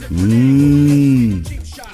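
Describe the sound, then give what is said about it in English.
A cow moos once, a low, drawn-out lowing call that holds a steady pitch for over a second before trailing away. “In Uruguay, cows outnumber people by 3-1.”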